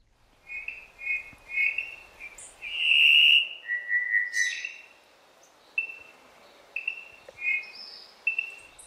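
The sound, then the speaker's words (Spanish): Cuban solitaire song from a shaded forest bird in Cuba: clear, flute-like whistled notes, some short and repeated, some held longer, shifting in pitch and fairly faint, with no voices. “pocos paisajes sonoros resultan tan admirados en Cuba como el que compone con maestría El solitario cubano, nombre científico Miadestes Elizabeth.”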